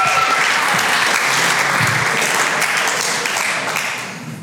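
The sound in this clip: Applause from the audience at a Sunday service, given for the sound and AV team: dense, steady clapping that holds for about four seconds before tapering off at the end.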